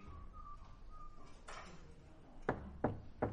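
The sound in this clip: Three sharp knocks on a house door, evenly spaced, stand out over a faint low background hum after a quiet stretch.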